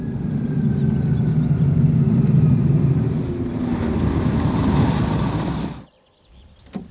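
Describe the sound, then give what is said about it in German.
A bus from Amiens pulls up at its terminal stop after rain, with a steady heavy engine rumble for about six seconds. A sharp air-brake hiss sounds near the end, then the engine cuts off into near silence. “Zum Glück hatte wenigstens der Regen aufgehört, als ich zur Endhaltestelle ging, um den Bus aus Amiens zu erwarten.”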